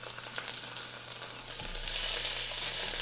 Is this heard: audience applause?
no

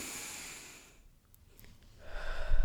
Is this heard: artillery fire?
no

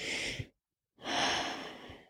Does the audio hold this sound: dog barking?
no

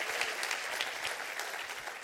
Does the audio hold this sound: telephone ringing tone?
no

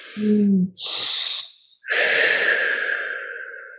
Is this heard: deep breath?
yes

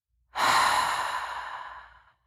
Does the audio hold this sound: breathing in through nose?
yes

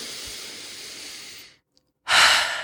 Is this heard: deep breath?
yes

